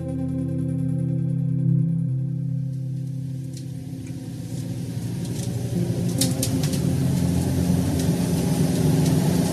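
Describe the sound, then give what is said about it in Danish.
A bus engine running as the bus drives from Viborg: a steady low drone with a strong hum at first, shifting partway through into a rougher, busier rumble that holds to the end. “Nu vi inden så længe går ud af bussen her fra vi kører fra Viborg til destinationen i Torning.”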